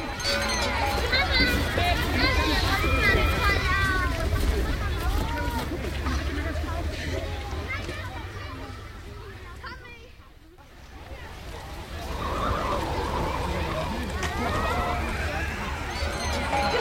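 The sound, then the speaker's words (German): A sleigh rides back to the Lindenhof with steady clopping and rolling noise throughout, dipping briefly midway, while voices talk over it. “Aber nun schnell auf den Schlitten, zurück zum Lindenhof.”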